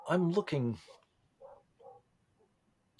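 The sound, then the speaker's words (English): A dog barking, two short, faint barks following a brief stretch of talk, then a small click near the end. “Sorry, my dog is audibly barking.”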